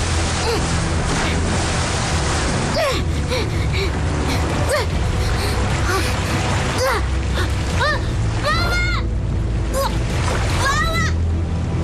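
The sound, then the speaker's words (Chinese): Splashing and rushing river water as a mother and her young child swim toward the far bank, a loud, continuous churning wash with voices, including a child's, calling over it. “在河水中努力向对岸游去，”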